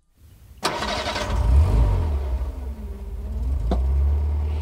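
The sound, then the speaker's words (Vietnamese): Car engine cranking and catching with a sharp onset, then settling into a low, steady rumble that swells as the car drives off, with no voices. “rồi nổ máy chạy xe theo người giám đốc, đưa ông ta về tận nhà.”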